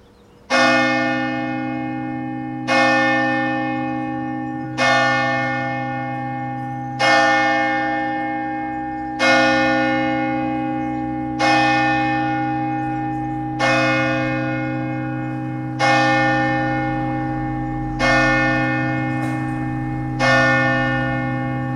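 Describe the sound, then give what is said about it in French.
Church bell in the Basque Country striking the hour: ten loud, evenly spaced tolls about two seconds apart, each ringing out with a long, rich decay before the next strike, with no voices. “L'église, elle sonne deux fois l'heure ou une fois? Là, elle vient de sonner, elle va ressonner les coups de 10h ou pas?”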